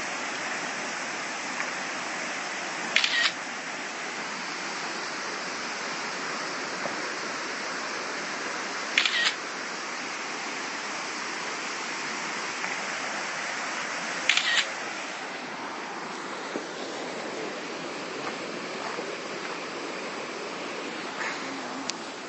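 A camera shutter fires during a photo stop on an outdoor adventure hike: three distinct sharp clicks spaced several seconds apart, with a few fainter ticks, over a steady rushing background noise.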